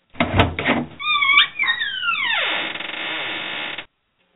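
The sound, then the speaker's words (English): Vault door opening sound effect: a few metallic clunks, then layered tones that slide and sweep downward into a steady hiss, which holds and then cuts off abruptly. “that's the sound of the vault opening”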